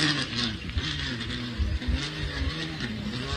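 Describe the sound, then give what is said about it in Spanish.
Race car engine accelerating during a stage race: a loud, continuous, buzzing engine roar with a strong low growl that pulses slightly throughout. “Ahí está, de fondo, el sonido de la máquina de Baldoni. Lo seguimos escuchando al puntano, así que acelera.”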